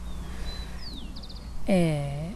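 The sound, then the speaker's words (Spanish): Birds call beside a river in Tigre: thin, faint chirps and a quick descending whistle sound over a low, steady rumble, then a voice briefly cuts in at the end. “Y se escuchan los pájaros, y tenemos enfrente el río”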